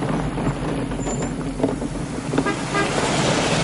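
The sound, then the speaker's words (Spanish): A car horn toots as the car drives off the Roseman bridge and passes a van. The short honks sit over a steady rumble of engine and road noise. “Un coche sale del puente, se cruza con ellos y les saluda tocando el claxon.”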